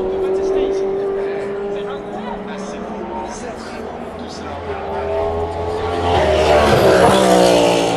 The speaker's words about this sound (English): And a loud BMW going very quick.